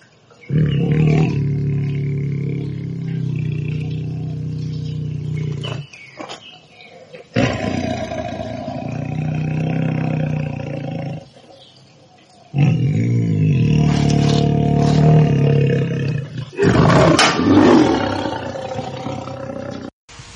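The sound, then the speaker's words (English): A tiger roars and growls in several long, deep, powerful bursts, separated by short pauses, loud and with no voices. “At the number two slot is the tiger.”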